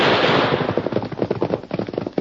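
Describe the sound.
Rapid gunfire from an ambush on a canyon ridge: a dense volley of many sharp, crackling shots in quick, uneven succession, loud and unbroken at first, then thinning into separate pops.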